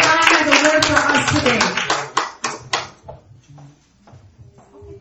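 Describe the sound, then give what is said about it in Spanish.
Church audience applauding to welcome an apostle, with brisk, dense clapping that fades after a couple of seconds into scattered claps and a speaking voice. “So vamos a recibir a nuestro apóstol, amen. Dale un aplauso.”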